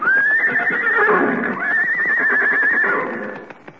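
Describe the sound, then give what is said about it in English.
A horse neighing: two long, loud whinnies, separated by a short pause, that fade toward the end. “Well, here he comes with the horses. Yeah, here are the horses”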